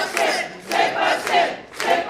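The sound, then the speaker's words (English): Crowd of Quebec separatists cheering at a party while watching election results come in, loud massed voices rising and falling in a few rhythmic chant-like bursts. “Celebrations at a party for Quebec separatists. They're watching election results come in on October 5th, 2026.”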